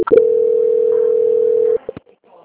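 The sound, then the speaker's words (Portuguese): A telephone call-transfer tone: one long, steady, loud beep holds unbroken for well over a second, then cuts off, followed by a few faint short clicks. “Eu vou transferir você agora para o setor de qualidade. Só aguardar um minutinho, tá bom? Muito obrigada. Um momento. Transferência.”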